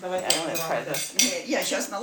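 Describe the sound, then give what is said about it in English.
Sirniki dough of egg yolk, rice and wheat flour, vanilla sugar and orange zest being mixed in a bowl in a home kitchen in Kyiv, with a few bright clinks against the dish. “rice flour, wheat flour, vanilla sugar, skin of orange. And he mixes by hand.”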